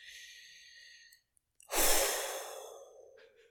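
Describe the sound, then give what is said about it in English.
A long exhaled sigh: a single loud, breathy rush of air that swells suddenly and tapers off over nearly two seconds. A short tonal sound and a brief silence come before it. “The long exhale.”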